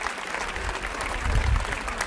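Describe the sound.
Applause from a large crowd gathered at a strike rally, a dense and steady wash of clapping that swells slightly toward the middle, with a low rumble underneath.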